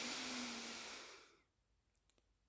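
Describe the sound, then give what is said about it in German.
A deep breath is exhaled, a loud breathy rush that fades away over a second and a half, followed by a few faint clicks. “Nehme mal einmal drei bewusste Atemzüge ganz tief einatmen. Puh, ausatmen. Nochmal einatmen.”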